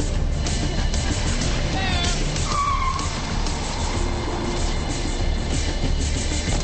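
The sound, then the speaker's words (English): A car drives past a place called the Buena Vista and pulls in to park in a film scene. A steady engine rumble runs throughout, and a brief high tire squeal cuts through partway along. “Ray drives by the Buena Vista and parks.”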